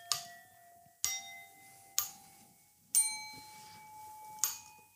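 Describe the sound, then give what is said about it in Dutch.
Ringing bell tones from a long Chinese bell cord, played in semitone steps: four clear, bright strikes about a second apart follow an earlier note. Each strike has a sharp attack and a sustained, slowly fading ring. “Maar ik heb hier een Chinese... Ja, het is een soort bellenkoord. En dat zijn dus niet alleen de halve tonen. Ik zal even de halve tonen laten horen.”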